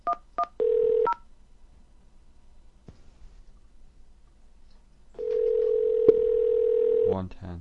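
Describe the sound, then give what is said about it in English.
Telephone keypad dialing an extension on an automated phone line. A few quick dual-tone key presses and a short steady beep are followed by a pause, then a longer steady beep and more rapid tones at the end. “Dial that now and your call will be transferred.”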